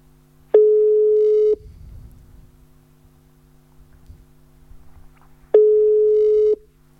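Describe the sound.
Telephone ringback tone while a call is placed, two steady low-pitched tones of about a second each, spaced several seconds apart, with a faint hum in between.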